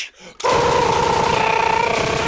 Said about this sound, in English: Just wasted a whole Uzi.